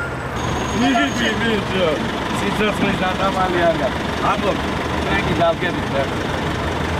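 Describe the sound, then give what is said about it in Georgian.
A number 3 city bus idling at a stop while a team of children board one after another, with a steady low engine rumble, a faint high tone at the start, and a voice talking over it. “15 წუთიანი ლოდინის შემდეგ ავტობუსი მოდის და ბავშვებიც ერთმანეთის მიყოლებით ადიან ტრანსპორტში.”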